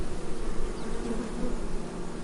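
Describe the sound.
Honeybees buzzing inside an opened beehive, its lid lifted off, forming a dense, continuous hum that stays steady throughout with no voices.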